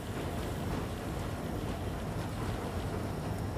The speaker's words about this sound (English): As the train chugs over a road, Roger gives a few sharp tugs on the regulator.